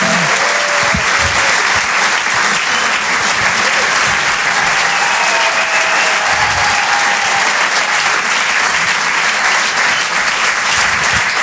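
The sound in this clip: Audience applause for a comedian at a comedy club: loud, dense, steady clapping that carries on without a break, with faint crowd voices mixed in.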